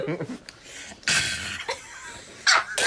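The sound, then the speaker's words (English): A voice imitates breathless laughing while running, giving a few wheezy, gasping bursts and huffs of breath at fairly low volume. “That's the noise that I made when we were running for that house. I was going, because I was laughing, but I couldn't breathe.”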